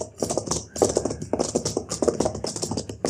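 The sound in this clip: Hooves clip-clopping as a horse-drawn wagon approaches, a busy run of many quick, rhythmic knocks that stay fairly loud and steady throughout.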